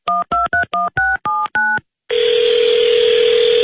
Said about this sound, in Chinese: 所以当我决定见面以后，就立刻给他打了电话。